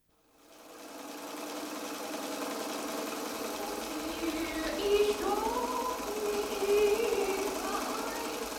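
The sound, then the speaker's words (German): Sewing machine stitching curtains for a music room, starting up and then running in a steady, continuous mechanical whir for several seconds. “Ich nähe Gardinen fürs Musikzimmer.”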